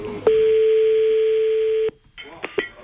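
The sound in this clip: A telephone number is dialed to call a game-show contestant back. A steady tone sounds for well over a second, then stops. After a short gap come two quick, bright key-press beeps.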